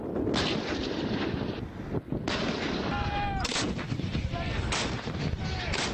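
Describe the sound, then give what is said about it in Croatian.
Armoured units fire heavy guns during a military exercise, with several loud, sharp blasts, each followed by a rolling rumble, while wind noise runs underneath. “Planirane operacije ovom manevru započele su jutro s pucanjem oklopnih postrojbi i zračnom podrškom vojnih helikoptera unaprijed određenom području.”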